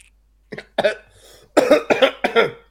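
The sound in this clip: Several harsh coughs from someone with something stuck in the throat, coming in short rough bursts after a brief silence, with the later coughs louder and closer together.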